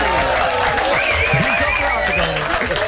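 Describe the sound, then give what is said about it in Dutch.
Studio applause greeting a radio show guest, a dense burst of clapping with excited voices over it, lively and even throughout. “Geef hem een groot studioapplaus.”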